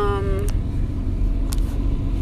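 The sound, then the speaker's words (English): Steady low engine and road rumble fills the cabin of a car being driven, heard from inside, continuous and fairly loud throughout with no clear changes in pitch. “Sorry if I sound far away, guys. I am driving”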